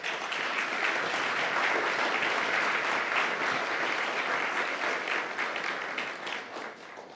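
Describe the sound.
Audience applause welcoming visiting students and assistant professors from the University of Toronto's Indigenous Studies program: steady, even clapping held at a soft level throughout, tapering slightly at the end.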